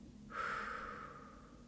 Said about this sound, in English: Breathe out all of the air from your lungs.